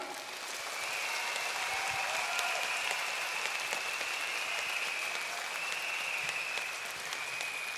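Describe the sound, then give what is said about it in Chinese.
Sustained audience applause at a concert, many hands clapping in a broad, even roar that builds slightly after the first second and then holds steady, fairly quiet overall and with no talk over it. “所以我想大家同我俾好劲好劲嘅掌声，我嘅团队。”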